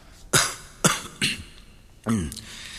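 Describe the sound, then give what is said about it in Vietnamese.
A person fakes a few coughs on purpose: short, sharp bursts separated by brief pauses, each dropping off quickly. “Minh đã chuẩn bị sẵn, làm bộ ho mấy tiếng và đáp:”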